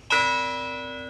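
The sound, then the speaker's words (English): One strike of a memorial bell, rung for victims at a university remembrance gathering: a bright, clear clang that rings on and fades slowly, alone. “A long bell sounded once around 9:45. And it rang again for every victim.”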